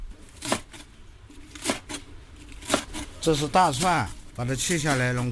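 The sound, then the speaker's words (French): Garlic being cut with a knife on the sidewalk for rice noodles: a few sharp, separate chopping and scraping strokes, followed by a voice talking over the last seconds. “Je coupe de l'ail, puis je mettrai tout dans le feu. Je prépare des nouilles de riz.”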